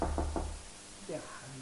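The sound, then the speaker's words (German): Three quick, hollow knocks on a door sound loudly at the start, followed by a voice speaking. “Aber jetzt klopft der Heilige Geist. Er möchte rein.”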